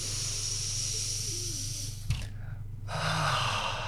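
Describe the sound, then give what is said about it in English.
A person breathes in through the nose and out through the mouth, with soft, airy breaths, a brief sharp intake, then a longer hissing exhale near the end. “Can you breathe in through the nostrils? I'm going to breathe out through the mouth. Give me another two in.”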